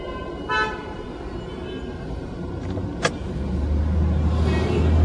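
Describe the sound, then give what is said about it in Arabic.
A car horn gives a single short toot on arrival at a main gate, over a steady vehicle hum that grows gradually louder toward the end. “هرن لك اول ما اوصل على الباب الرئيسي”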